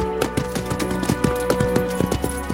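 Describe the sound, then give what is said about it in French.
A horse galloping through countryside at sunrise: quick, rhythmic hoofbeat thuds in a steady pattern over sustained musical tones. “Un petit galop !”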